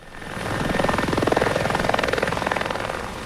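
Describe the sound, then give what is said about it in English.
Helicopters ferrying firefighters to a wildfire in Almeria province, southern Spain, fly with a loud, steady, rapid rotor chop and a broad engine roar, continuous throughout with no voices. “helicopters buzzed through the air, transporting firefighters who've contained a blaze burning in Almeria province.”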